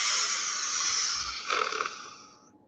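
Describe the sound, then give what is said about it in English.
A voice imitates shallow breathing as one continuous airy, sipping hiss. It grows slightly fluttery midway, then fades out. “whenever they breathe for the lung capacity, I could breathe like...”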